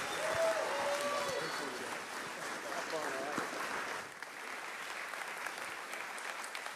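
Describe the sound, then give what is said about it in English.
An audience applauds to welcome a speaker on stage at an event, a steady wash of clapping that eases slightly partway through. A few voices call out at the start. “So can you stand up on your feet and give Seth Gruber a big welcome, TP Faith, welcome. Come on, give it up for Seth.”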